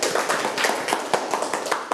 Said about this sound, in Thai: ปรบมือให้ตนเอง